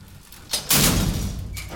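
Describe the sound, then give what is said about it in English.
Lift doors slide closed with a sudden rushing swell of noise that holds steady and loud for about a second before easing off. “Brunn pushed her hover chair into the lift and slid the doors closed.”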